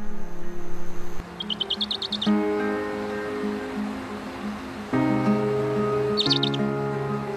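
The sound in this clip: A mother bird of prey and her chicks chirp at their nest, with two brief bursts of rapid, high-pitched twittering, fairly faint, separated by several seconds of steady background sound.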